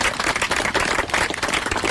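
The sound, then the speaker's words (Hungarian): Applause from an audience at a memorial statue ceremony: a dense, steady clatter of many hands that holds at moderate level for its full length. “egy tapsot kérek.”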